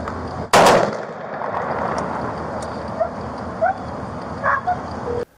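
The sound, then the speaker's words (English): Two police officers fire almost simultaneously at an armed man, producing one loud, sharp gunshot burst near the start. A steady noisy background follows, with a few fainter short sounds. “Before he could pull the trigger, two officers almost simultaneously pulled theirs.”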